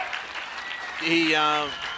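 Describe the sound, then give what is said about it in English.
Applause for a player leaving the field at a cricket match, a steady wash of clapping throughout, with a commentator's voice rising over it in the second half. “Mosca gets well and truly deserving round of applause as he leaves the field”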